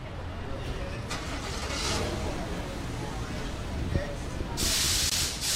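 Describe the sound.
Gas station ambience along US 1 in Miami-Dade County, with a steady wash of traffic and engine noise throughout and a bright burst of hissing near the end.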